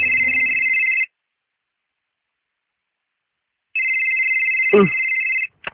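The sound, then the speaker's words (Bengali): Telephone ringing with a steady, high electronic tone in two long bursts separated by silence. A brief voice cuts in during the second ring before it stops. “এ সময় আবার কে phone দিচ্ছে?”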